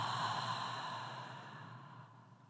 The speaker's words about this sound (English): Take one breath in through the nose and exhale slow and steady through the mouth.